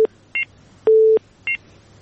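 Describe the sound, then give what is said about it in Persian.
Telephone dialing tones as a radio call-in is connected: four tones, alternating brief high dual-pitched beeps with lower steady tones, the third tone held noticeably longer, with no talk. “یک تماس دیگه رو میگیریم”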